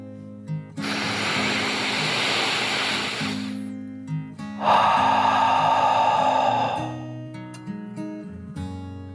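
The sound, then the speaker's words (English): A deep, slow breath drawn in and then let out, done as a calming dragon breath in a children's mindfulness exercise: a long, airy inhale, a brief pause, then a rushing exhale with a fuller, throatier texture, over a soft steady tonal backdrop. “Taking one last deep dragon breath in and out.”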